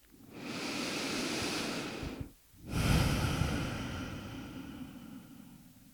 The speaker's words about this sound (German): Atme tiefer ein und nochmal aus.